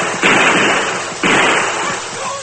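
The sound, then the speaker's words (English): Two gunshots ring out during a struggle with an armed man, each a loud, harsh blast with a lingering noisy tail, spaced about a second apart and heard alone without voices. “I shoot again. Make sure of him.”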